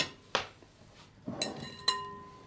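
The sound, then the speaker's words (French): A spoon clinks against a bowl while apple and pineapple pieces are mixed in, giving a few sharp ringing clinks spaced apart, with quiet soft shuffling between them. “il faudra donc ajouter donc les morceaux de pommes et d'ananas et mélanger à tout le reste.”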